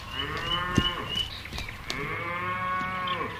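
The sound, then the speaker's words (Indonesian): Cows mooing, the lost herd calling nearby: long, drawn-out lowing calls with rich harmonics that overlap and carry through the whole clip, loud and clear, with no voices. “Itu seperti suara sapi yang kita cari. Suara itu terdengar dari sebelah sana”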